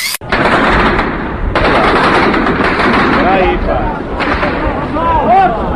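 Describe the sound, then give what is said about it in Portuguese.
Machine-gun fire from a tank's top-mounted gun turned toward a building: a loud, dense rattle of rapid shots that runs almost unbroken, with brief dips between bursts and faint voices rising under it. “deram a tal rajada com a arma de cima, a metralhadora, e ficaram à espera”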